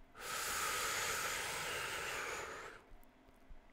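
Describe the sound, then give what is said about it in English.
One long, deep breath drawn in during a relaxation exercise, a steady airy rush that lasts almost three seconds and then stops, leaving near silence. “Okay, so now take a deep breath.”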